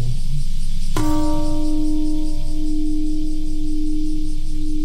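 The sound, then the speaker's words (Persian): The Peace Bell in Hiroshima rings at a memorial marking the anniversary of the atomic bombing. A single sharp strike is followed by a long, low, steady hum that carries on for several seconds over faint background noise. “زنگ صلح ساعت 8:15 صبح به وقت هیروشیما به صدا در آمد.”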